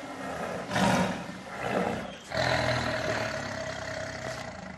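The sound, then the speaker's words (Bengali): A tiger roars in a wildlife sanctuary in Rock Creek Park, Washington, near the White House: a few deep, rumbling roars swell and fade, then one long, low, sustained growl carries on to the end. “White হাউসের অদূরে শোনা যাচ্ছে বাঘের গর্জন।”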